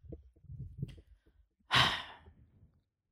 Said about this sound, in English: you yawning too much